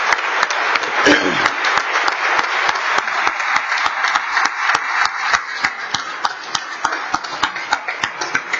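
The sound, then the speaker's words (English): Standing ovation from a gallery for a guest, a state Teacher of the Year: loud, sustained applause from many people, a dense wash of clapping that carries through from start to finish. “that's the first time I've seen a standing ovation for a guest from other folks in the gallery”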